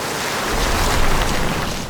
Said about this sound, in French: Le bourdonnement de la ville s'efface au profit d'un grondement de fleuve en colère.